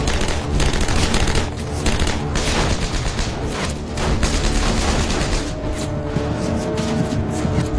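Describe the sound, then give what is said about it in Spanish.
Intense gunfire in a World War II battle at a bridge during the defense of the Rhine: a loud, dense, continuous barrage of overlapping shots and bursts with no pauses. “Y Faust sale en dirección al puente bajo una intensa lluvia de disparos.”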